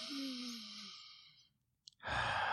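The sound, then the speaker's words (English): A deep breath drawn in slowly, one long airy inhalation after a short near-silent pause, clear and fairly loud against quiet surroundings. “Take a deep breath.”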